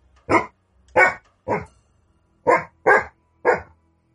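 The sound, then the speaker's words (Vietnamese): A dog barks loudly and sharply, six barks in two groups of three separated by a short pause, with no other sounds between them. “Tiếng chó sủa vang lên rất lớn, đó là tiếng của con chó lông trắng đứng ở trên nóc nhà tôi mỗi đêm.”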